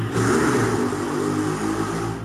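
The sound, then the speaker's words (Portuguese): Trucks passing on a street, making a steady, loud engine rumble with a low droning hum that holds without a break for a little over two seconds. “Eita, tá passando uns caminhão aí na rua do mundo espiritual, hein?”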